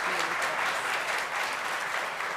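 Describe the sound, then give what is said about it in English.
Warm applause from a church audience welcoming a speaker, a thick, continuous patter of many hands clapping that stays loud and steady through the short span. “Let's give her a big warm round of applause.”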